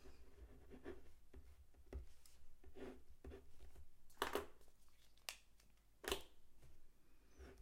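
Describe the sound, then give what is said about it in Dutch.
A pen scratches faintly across paper while someone writes on a hand-drawn mind map, making short, irregular strokes with a few louder scrapes and rustles in between. “Dus ik ga weer een krul op mijn mindmap toevoegen waar ik timings schrijf.”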